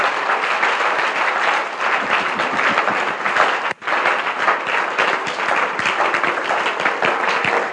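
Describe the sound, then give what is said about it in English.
Audience hand clapping fills the whole clip as a loud, dense, steady wash of many claps, broken only by a brief dip just past the midpoint before resuming at full strength. “Your hand clap tells me you, you are getting the point.”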